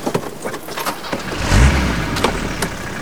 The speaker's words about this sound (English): Dave turns into the driveway to do a three-point turn, but then stops when a young couple pull up in a flash car.